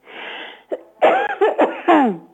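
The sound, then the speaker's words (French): A person coughing in a few short, harsh bursts with a rough, throaty edge, alone without talk. “Pourquoi je tousse.”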